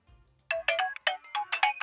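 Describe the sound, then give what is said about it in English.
A mobile phone ringtone plays a bright electronic melody of quick, bouncing notes in a steady rhythm. It is fairly faint and alone, with no voices. “My phone rings, but I don't know the number.”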